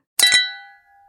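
Glasses clink in a toast: two quick, bright strikes in close succession, followed by a clear, high ringing tone that slowly fades to silence.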